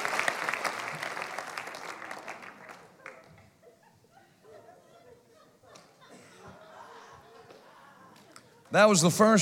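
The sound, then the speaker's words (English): A church audience claps its hands to the Lord, a busy burst of clapping that fades over the first few seconds into quiet shuffling and murmurs, before a voice speaks loudly at the end. “If you receive that, clap your hands to the Lord one more time.”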